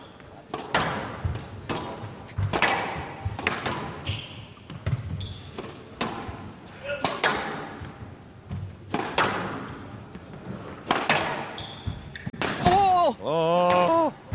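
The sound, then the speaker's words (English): Many sharp thuds of a squash ball striking the court walls ring out during an attacking rally in a professional match, coming in an irregular rhythm with some hits louder than others. “The ultimate squash rally. A wonderful attacking length to the back of the court, and then the finish, and the extravagant one.”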